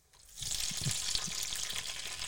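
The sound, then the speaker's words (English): Potatoes hit a hot pan already holding onions and tomatoes, and a bright sizzle swells up within the first moment. It then settles into a steady, fairly soft frying hiss with a few faint low knocks underneath. “That's the potatoes in there. So he's moved the onions and the tomatoes to one side and chucked the potatoes in the other half.”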